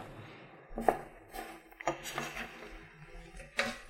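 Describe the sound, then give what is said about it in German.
Knife cutting fish in a home kitchen, faint and sparse, with a few soft knocks and scrapes against the cutting surface separated by quiet pauses. “Ich schneide jetzt den Fisch, lege den dann schon mal in Zitronensaft.”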